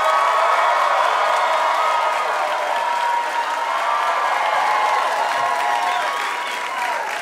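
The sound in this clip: A studio audience at a live quiz show applauds and cheers as a guest comedian and actor comes on, with thick, loud, continuous clapping and mixed shouts and whoops throughout, easing slightly toward the end.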